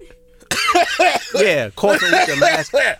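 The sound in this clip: A voice imitates someone coughing while wearing a face mask, with several rough, voiced bursts in quick succession after a brief near-silent start.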